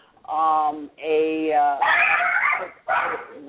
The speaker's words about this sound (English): obviously we're a kitchen table production with the dog barking